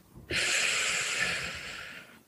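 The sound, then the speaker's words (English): Calm breathing during a relaxation exercise: one long, airy rush of breath lasting about two seconds, steady at first and then slowly fading, heard alone. “and nice inhale in, not too deep, medium breath in, and then a short, long breath out. Inhale, short, long.”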